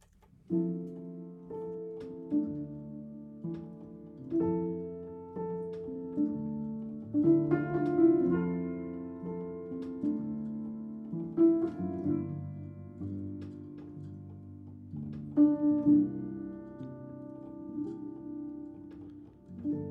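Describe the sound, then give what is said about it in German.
A gentle, unreleased acoustic song meant as a sleep aid plays with no singing yet, its soft plucked notes forming a slow, steady melody over sustained low tones at an even, moderate level. “Auch kein veröffentlichtes Lied, sondern ein akustisches, was du so nebenbei quasi gemacht hast. Das heißt Einschlafhilfe und das klingt so.”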